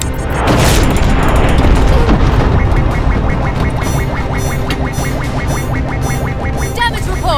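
Heavy booming blasts of missiles striking a spaceship in a sci-fi battle. A loud explosion opens, followed by sustained dense rumbling with rapid mechanical clatter throughout.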